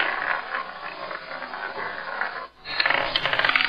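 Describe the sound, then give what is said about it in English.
A spinning roulette wheel makes a dense run of rattling mechanical clicks. The clicks drop away briefly near the end, then return as sharper, more separate ticks. “I've replaced the numbers on a roulette wheel with the names of investment gurus. I'll spin the wheel and roll the barbell”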